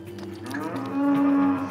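A calf lying in the wrong position gives a single long, low moo that swells louder in the middle and eases off at the end, heard alone without talk.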